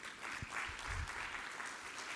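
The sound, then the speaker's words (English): An audience applauds the speakers and chairs at a conference with a faint, steady round of many overlapping claps that holds an even level from start to finish. “I want to thank first our speakers and our chairs for your participation. You all did a fabulous day job today, so I want to give you all a round of applause.”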